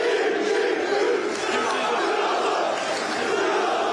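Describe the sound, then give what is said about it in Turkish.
Football fans chanting and cheering for a player at an airport, a dense, loud wall of massed voices that stays fairly even throughout. “Salah'ın üçlü çektirdiği taraftarlar "Ya Allah Bismillah Muhammed Salah" tezahüratlarında bulundu.”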